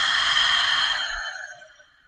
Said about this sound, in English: And now I want you guys to take a deep breath in through the nose and out through the mouth.